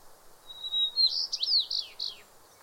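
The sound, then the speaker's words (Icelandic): House finch song, from a North American finch: a quick, high, bright phrase that opens with a thin steady whistle, runs into a cluster of varied chirps and slurred notes, and ends on a falling note, heard alone. “Þessa blöndu erða og umhverfis má heyra frekar vel hjá kúftillingum, fuglum sem lifa í Norður-Ameríku.”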